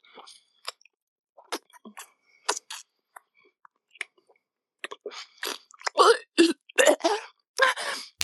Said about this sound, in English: I'll work up some spit to bathe your tip. Like this.